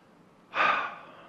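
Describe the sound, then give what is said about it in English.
One deep breath, a soft airy rush that swells suddenly and then tapers off slowly, faint and heard on its own. “Take a deep breath.”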